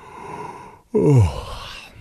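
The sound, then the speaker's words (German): A sluggish yawn from a lazy dinosaur character still lying in bed in the morning: one short, voiced, groan-like breath with a slightly falling pitch, loud against a faint background hiss and otherwise quiet. “Er gähnt träge vor sich hin”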